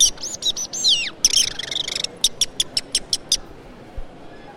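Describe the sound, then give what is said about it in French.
A chaffinch sings a short, bright song: a few quick, high chirps and sweeping notes, then a run of evenly spaced, clipped notes, after which it falls quiet. “Le pinson des arbres.”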